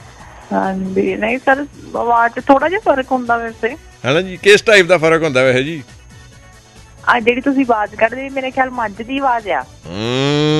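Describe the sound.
A voice imitates cattle mooing, producing several drawn-out, lowing moo-like calls broken by pauses, with a final rising call at the end.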